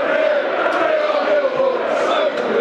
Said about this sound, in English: That's got the den livened up as well. It's brought the crowd into play.